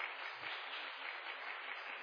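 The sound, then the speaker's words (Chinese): Brief, soft applause welcomes a dean at a Presbyterian church gathering. The clapping forms an even, muffled wash of sound for about two seconds. “咱搁一边热烈掌声来欢迎吼，陈院长吼。”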